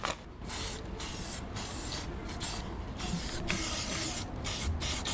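An aerosol spray paint can hisses out in long, steady bursts with brief gaps between them. The bursts are fairly loud and continue throughout with no talk.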